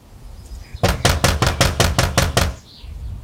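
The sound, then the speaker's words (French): A rapid, loud series of sharp knocks on the door of a house in 1905, about nine evenly spaced raps in quick succession, with no voices. “Eh bien, viens, on va aller frapper chez lui.”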